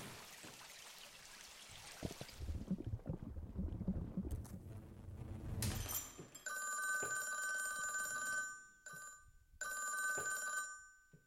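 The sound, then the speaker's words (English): A telephone bell from a sound library rings in several bursts with short gaps after a stretch of rushing, rumbling noise. The last ring tapers away gradually instead of cutting off, all fairly quiet. “Like, you can actually hear, like, the telephone sound when it's going away. You can actually hear it going away instead of just, like, abruptly going.”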